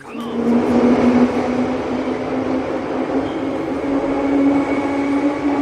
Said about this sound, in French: La sonnerie fermeture des portes, non, c'est ça ? Vous avez reconnu ? Le métro. C'est le métro